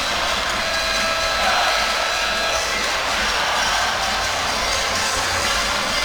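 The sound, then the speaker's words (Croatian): The Tornado supporters group at a Zadar basketball game in an indoor arena make a loud, steady roar of massed voices that holds at an even level throughout, with no clear separate chants. “Da, zabavljaju se navijači naravno uz navijanje. Tornado kao i uvijek,”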